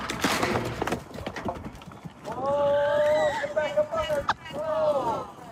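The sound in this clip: Hooves clip-clop as a horse that caught on an obstacle suddenly starts moving and its rider falls, with irregular clatter mixed with people's voices and a sustained tonal cry in the middle.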